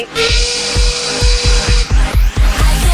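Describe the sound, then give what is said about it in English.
A chainsaw runs loudly with a harsh, buzzing engine tone that pulses in a fast, regular rhythm, and its pitch rises partway through as it revs. “I hear a chainsaw in the background.”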